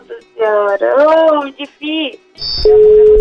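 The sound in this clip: A steady telephone line tone holds through the final second of a short phone call being placed, after a brief high beep; a few short bursts of voice come before it.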